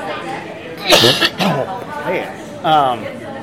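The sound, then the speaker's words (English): Someone with a persistent cough gives a few loud, harsh coughing bursts mixed with voiced, throaty sounds, with speech close around them. “can't stop this coughing today.”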